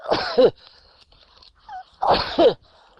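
Two short, sharp sneezes burst out a couple of seconds apart, each a loud explosive rush of breath ending in a brief voiced catch, with quiet pauses between them.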